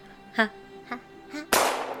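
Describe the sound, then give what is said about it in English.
Sniper rifle gunshot in a video game: one loud, sharp crack with a noisy, ringing tail, preceded by a few short vocal sounds. “Wait, who shot me? Oh, well, perfect sniper, the first shot is free.”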